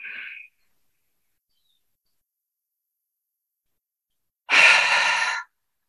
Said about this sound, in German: Tief und lange aus. Einatmen.